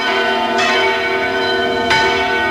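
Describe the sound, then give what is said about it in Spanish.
Four church bells ring at Santa María de Ujué in Navarra, a medieval church built like a castle. Their rich, sustained tones overlap, and two fresh strikes stand out in a loud, continuous peal with no voices. “Están sonando cuatro campanas de esta iglesia de Santa María de Ujué, en Navarra.”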